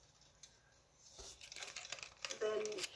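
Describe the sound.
Paper being folded gives soft crinkling and rustling that grows busier and louder in the second half, heard alongside a quiet voice.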